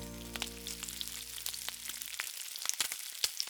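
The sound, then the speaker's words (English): Peppercorns sauté in olive oil over low heat, giving a soft sizzle with many scattered crackles and pops. A low steady hum sits under the first two seconds, then cuts out, leaving the frying alone. “And I'm just gonna pour that oil over those peppercorns. And like I said, we're gonna saute them on low for about 5 minutes.”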